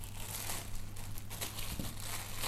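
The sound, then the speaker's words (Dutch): Plastic cling film crinkles as it is wrapped around a piece of Dutch cheese. The crackling rustle is steady and moderately loud for the whole stretch, with no talk. “En dan pak ik de kaas weer in. Ik heb hem in een, eh, in een plastic folie wrap gedaan.”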